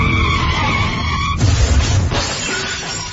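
A speeding car's tires screech as it skids at a crossing, a loud sustained squeal that gives way midway to a rough, noisy scraping rumble.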